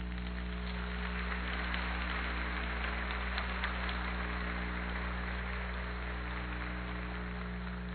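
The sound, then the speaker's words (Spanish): A church audience applauds in a steady, dense wash of clapping with no distinct individual claps. It runs evenly throughout, fairly quiet, over a constant low electrical hum. “Démosle un aplauso al Señor por eso”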